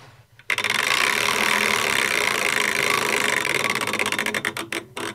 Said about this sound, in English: I think it must be time for a wheel spin. Let's have a go.